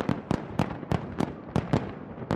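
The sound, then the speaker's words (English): Fireworks explode over a city on New Year's Eve in a rapid, irregular run of many sharp cracking bangs, fairly faint, with short gaps between bursts. “The waiting crowds were rewarded with an 8-minute firework display, lighting up the clear skies over the capital.”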